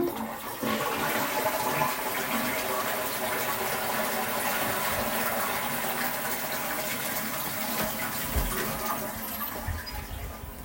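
A toilet flushes in a bathroom, producing a loud, steady rush and gurgle of water that continues for about ten seconds, easing only slightly near the end.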